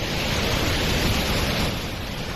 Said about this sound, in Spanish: Al momento, ramblas como esta entre Les Useres y la Baidalba a tope de agua y bajando a gran velocidad.